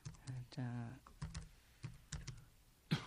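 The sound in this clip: Keys clattering on a computer keyboard as a search is typed, a quick, uneven run of soft clicks and taps at low level.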